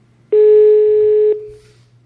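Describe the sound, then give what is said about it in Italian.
A telephone ringback tone sounds while calling someone: one steady, flat electronic tone lasting about a second, clear and alone, followed by quiet. “sentiamo se risponde Giampiero Mazzoleni.”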